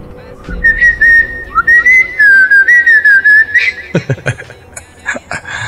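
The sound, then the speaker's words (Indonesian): A person whistles a tune in a clear, high, wavering melody of many short notes for about three seconds, followed by fainter, scattered sounds. “Masa setan datang gara-gara denger siulan sih? Oh, apa karena dia hafal juga lagunya ya?”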